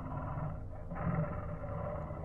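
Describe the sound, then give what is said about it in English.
A monstrous creature lets out its last roar, a low, rumbling, sustained bellow that fills the whole stretch, faint and steady with a slight swell partway through. “We waited until suddenly it let out its last roar”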